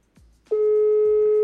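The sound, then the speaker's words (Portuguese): Telephone line tone on an unanswered call being dialed again: a brief low sound, then a loud, steady, unbroken electronic tone holding one pitch to the end. “Porra, deu um toque, o malucão não atendeu. Vou tentar de novo.”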